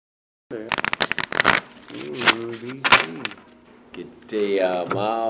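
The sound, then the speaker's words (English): Playing cards are shuffled in a quick run of sharp riffling clicks as a group of language learners plays a card game, followed by several people talking over the game. “And what you just heard is a group of language learners playing cards.”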